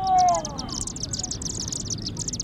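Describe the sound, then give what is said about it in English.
High, rapid chirping and twittering from a flock of small dark birds whirling above a chimney at dusk on a September evening. The busy chatter runs throughout over a low rumble, and a brief voice-like tone sounds at the start. “Scores, perhaps hundreds, of small, dark birds whirling by, then forming a funnel-shaped cloud above the chimney.”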